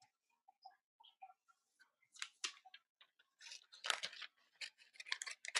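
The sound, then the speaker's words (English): Faint snipping of scissors cutting coupons from paper, many small crisp clicks and rustles at an irregular pace, growing busier and denser in the second half. “Maybe just stop cutting coupons and just focus on the show. No, I was told to cut coupons, so.”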